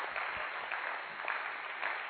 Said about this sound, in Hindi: ये हैं lucky stars, इनके लिए खूब तालियां बजाइए